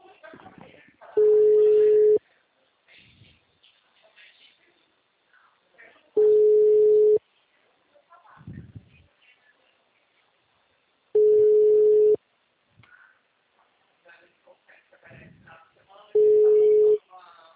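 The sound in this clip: A telephone ringback tone plays on an outgoing call: four steady, low, identical beeps, each about a second long and separated by gaps of roughly four seconds, with faint voices murmuring in between.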